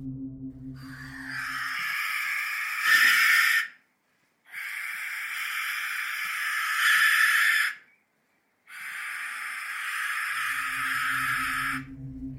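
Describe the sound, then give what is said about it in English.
Defense call of an Australian possum: three long, harsh, raspy rattling bursts, each lasting a few seconds, loud and separated by short silent gaps. “So this is the defense call of an Australian possum.”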